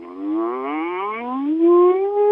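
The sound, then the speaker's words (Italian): A single voice hums with closed lips in a siren-like vocal exercise, gliding continuously upward from its lowest note to its highest in one smooth, steady, sustained tone. “Possiamo provare la nostra voce facendo il cosiddetto muto, cioè una sirena in labbra chiuse, partendo dalla nota più grave alla nota più acuta”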